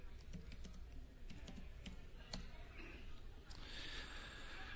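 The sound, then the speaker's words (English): Typing on a computer keyboard to enter a search in Logos Bible software: a quick, irregular run of faint key clicks over low background hiss. “And let's type in, let's say, Romans 5.”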